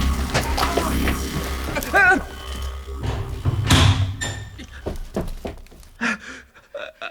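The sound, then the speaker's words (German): A floor hatch is slammed shut and bolted in a German radio play: a heavy wooden thud, then several sharp knocks and metallic clicks. Panting and vocal exclamations are heard earlier. “Die Bodenluke wurde verriegelt.”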